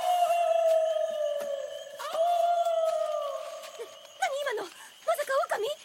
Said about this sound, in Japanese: 狼は絶滅したし、第一沖縄に狼がいるはずないじゃない。